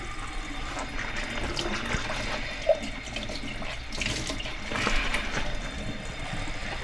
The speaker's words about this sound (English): we're gonna set the lid aside and we're gonna rinse the cups.